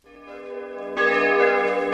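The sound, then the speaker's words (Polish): Church bells of St. Oswald's church ring at dawn: sustained, resonant metallic tones, with a second, louder strike about halfway through that swells the ringing. “Punktualnie o 4:15 nad ranem zaczęły bić dzwony kościoła świętego Oswalda”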